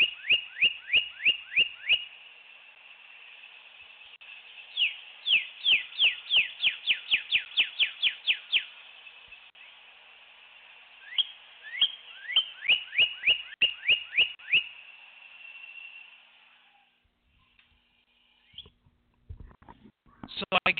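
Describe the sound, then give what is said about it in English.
A red cardinal sings in three long runs of clear, loud downslurred whistles, each a quick repeated series with pauses between. Fainter whistles and scattered rustling noises follow near the end. “This is the sound of a red cardinal. It is one of the most beautiful birds I've ever seen.”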